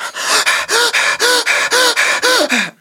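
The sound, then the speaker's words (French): Deep, forceful breathing demonstrated by one person in a quick, steady rhythm of many loud, breathy inhales and exhales, each separated by a short pause, with no talking. “Si on respire à fond, je peux vous le faire pendant 30 secondes, mais il faut que je m'éloigne du micro et que je garde tous mes esprits. Donc ça donne à peu près ça.”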